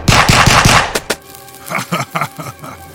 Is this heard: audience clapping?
no